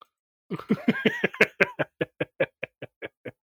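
A man has a fit of harsh coughing after accidentally inhaling beer: many short, sharp coughs in a fast, even string that grow slightly softer toward the end.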